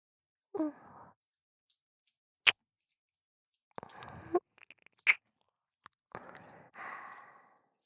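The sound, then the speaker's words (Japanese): Wet kissing sounds close to the ear, a few soft smacks and sharp clicks spread out in short bursts, mixed with breathy sighs and no talking. “あなたのお耳にキスをさせていただきます”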